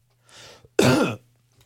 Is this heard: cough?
yes